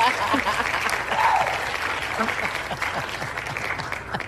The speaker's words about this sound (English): I have a little tradition that I do right here on air. And that is to give you a standing ovation even before we start this conversation.